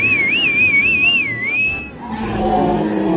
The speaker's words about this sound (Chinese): 不慌不忙地吹了一个口哨